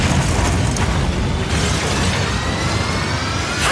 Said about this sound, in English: Why are things exploding?